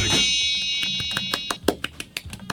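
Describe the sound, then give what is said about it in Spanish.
A novelty sound effect for a 'wish punch bowl': a shrill, ringing alarm-like tone that slowly fades, then a quick run of sharp clicks or taps. “La ponchera de los deseos. ¿Quién es lo que quiere pedir? Ponchera de los deseos. Así suena la ponchera.”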